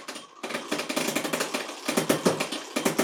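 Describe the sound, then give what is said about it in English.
A prize wheel spins and sounds broken: many rapid, rattling clicks in a steady, uneven chatter that continues through the whole clip at moderate loudness. “That wheel is sounding more broken and broken with every spin.”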